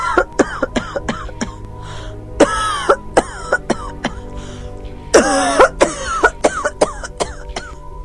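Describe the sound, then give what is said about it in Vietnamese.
An old woman's violent coughing fit: harsh, rasping coughs and throat-clearing in a rapid series of short hacks, broken by two longer, louder, strained bursts. The sound is fairly loud and heard on its own. “Bà Sang bỗng lên cơn ho dữ dội.”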